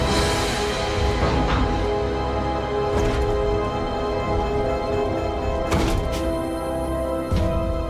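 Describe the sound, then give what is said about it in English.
A lander touches down in a video game: a loud, steady engine drone of layered humming tones runs throughout, broken by a few dull thuds. “Boom. Landing. Got that Kreet lander.”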